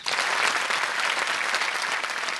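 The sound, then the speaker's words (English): Audience applauding in a packed hall at a gathering of a Spanish victims' association: dense, sustained clapping from many hands, loud and even throughout. “they don't want to look at us, they don't want to see us, but we exist, she says, as the audience in the packed hall shows its approval.”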